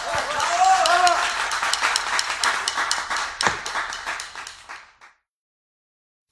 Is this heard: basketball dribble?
no